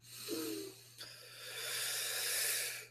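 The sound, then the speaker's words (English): A group takes a deep inhale together before chanting Om in a meditation class: a soft, breathy hiss that swells gradually and stays faint, over a low steady hum. “So deep inhale together now.”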